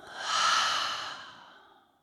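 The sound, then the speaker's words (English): A deep exhale out through the mouth during a guided breathing meditation, one soft, breathy rush of air that swells quickly and then fades away gradually over about two seconds, alone with no talk. “take a deep, full breath in through the nose, bring that intention all the way down into the body to land. And then open the mouth and let it out.”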